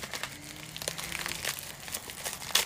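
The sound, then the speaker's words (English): Paper crinkles and rustles as a Scotch envelope is opened by hand, a faint run of irregular crackles with a sharper crackle near the end. “It's in an envelope from Scotch. Might need the knife after all. No, I can just grab it.”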